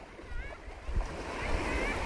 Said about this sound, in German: Maya und ihre Freundinnen sitzen mit mir am Meer. Hier am Strand gibt es Vögel.